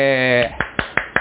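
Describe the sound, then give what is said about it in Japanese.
Slow hand claps follow a brief voice: four sharp, separate claps spaced evenly apart, crisp against an otherwise quiet background. “拍手が遅い。”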